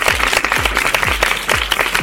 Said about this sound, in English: give yourselves a great big round of applause.